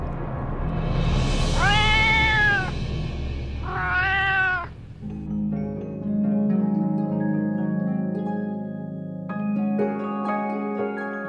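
A cat meows twice, two drawn-out, wavering calls close together, followed by soft sustained music that continues to the end.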